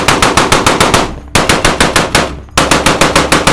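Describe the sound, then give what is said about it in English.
A gun fires bursts at a metallic flying saucer: loud, rapid automatic fire with evenly spaced rounds, broken by two brief pauses into three sustained bursts. “He raised the barrel of the gun. "Cover your ears," he hollered, before unleashing hell's fire.”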